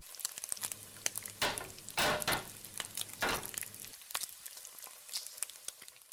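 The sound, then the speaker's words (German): Fried potatoes sizzle in a pan with a steady crackle and spatter, broken by a few louder swells of hissing that sound like stirring or turning. “Die fertig gebratenen Bratkartoffeln sind knusprig und bräunlich. Und so klingt es im Schillerhof, wenn Bratkartoffeln gebraten werden.”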